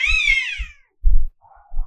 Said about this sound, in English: Oh, shit. The cats are fucking outside. I thought that was, like, your roommate just moaning outside your window.